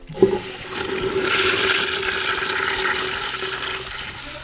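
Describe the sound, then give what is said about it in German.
A toilet flushes: a brief clunk of the handle, then a loud, steady rush and swirl of water that carries on for about four seconds without fading. “Das ist sicher leicht. Eine Klospülung kennt jeder.”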